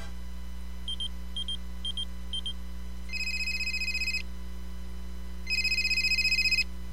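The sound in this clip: An incoming telephone call: four short beeps at one steady pitch, then two longer trilling rings with a pause between them, faint over a constant low hum.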